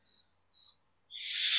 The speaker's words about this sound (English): Flies and other more mysterious insects fill the air, along with blossom and dust caught up.